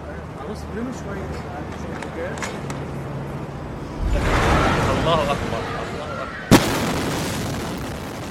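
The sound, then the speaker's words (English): The Beirut port explosion, caught on video during a bridal photo shoot: background noise and voices, a surge of rumbling, then one sharp, loud blast cracks out near the end. “When the blast ripped through the streets of Beirut, people caught it on video, and one of the videos that went viral was from a bridal shoot.”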